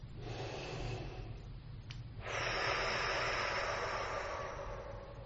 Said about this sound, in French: Vous inspirez lentement par le nez.